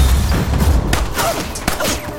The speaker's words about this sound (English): He kicks the front door in and shoots one of the Koreans several times in the chest as he sits at a table.